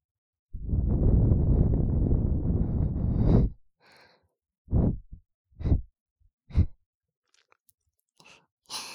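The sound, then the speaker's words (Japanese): Breath blown gently into the ear, starting with one long, sustained, breathy blow, then several short, soft puffs separated by quiet gaps. “これ欲しかったんでしょ？好きだもんね。ふうふうされるの。”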